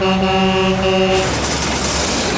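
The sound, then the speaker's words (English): A diesel truck driving out of control sounds its horn in a loud, steady blast broken by short gaps for about a second, then gives way to a harsh, loud rushing roar that continues to the end. “Oh my God! That diesel truck is driving out of control!”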